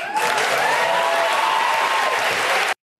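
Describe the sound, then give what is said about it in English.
A studio audience at the Colbert show applauds and cheers in a loud, dense, steady roar that cuts off abruptly at the end. “What's up with the audience, actually? I just wanted to hear what he sounded like, but the audience, that was like a pretty mundane thing to say. Woo-hoo! Anyway, that's the Colbert crowd for you.”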